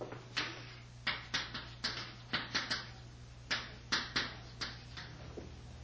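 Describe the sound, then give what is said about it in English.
Words being written in a column on a board, heard as many sharp taps and short strokes in an uneven rhythm, each quickly fading. “In the second column, we write the word John the Baptist.”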